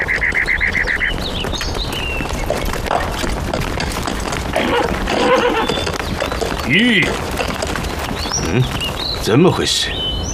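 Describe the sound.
A horse whinnies in a few high, wavering calls while people talk over steady noise. The horse has a broken horseshoe and is being led along a road.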